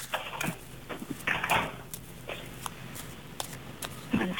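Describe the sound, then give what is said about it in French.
Playing cards are shuffled during a card reading: soft riffling bursts and light taps come in a few uneven clusters, faint and mostly without talk. “Je rebrasse les cartes et quand vous le sentez, le petit stop.”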